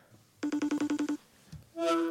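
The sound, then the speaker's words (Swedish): A telephone ringing tone while someone is being called. A quick run of short, evenly spaced electronic beeps is followed, after a brief pause, by a louder sustained tone. “Nu ringer vi John.”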